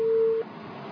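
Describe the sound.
A telephone busy tone follows a call being cut off: one short, steady, pure tone sounds briefly, then gives way to faint line hiss.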